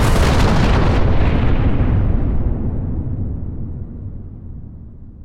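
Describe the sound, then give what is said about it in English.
Deep, roaring explosion of a uranium atom bomb dropped from a B-29 bomber, a loud rumbling blast that starts at full strength and slowly fades over several seconds, with no voices. “At 8:15, the American B-29 bomber, the Enola Gay, drops a uranium atom bomb over the city of Hiroshima.”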